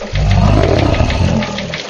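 A bear roar sound effect: a loud, deep, growling roar that holds steady for about a second and a half before easing off slightly, heard alone.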